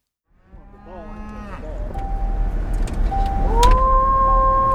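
Cattle moo on an Illinois farm as a part-time farmer calls his cows: a wavering call opens, followed by a few long, drawn-out moos over a low rumble.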